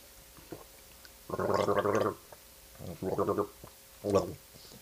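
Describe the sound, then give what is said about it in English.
A person gargling in three bubbling bursts: a long gurgle, then a shorter one, then a brief final one, fairly loud against a quiet background. “I don't know how people just gargle. It's weird.”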